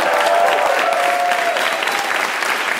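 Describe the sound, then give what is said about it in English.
A live audience applauds the evening's guests with sustained, dense clapping that stays loud and even throughout, tapering very slightly toward the end. “Can we give one more hand to all our guests tonight?”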